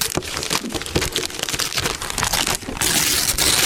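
Paper crinkling and tearing as a wrapped gift from under a Christmas tree is opened, a dense, irregular rustle of crackles that grows steadier and fuller toward the end.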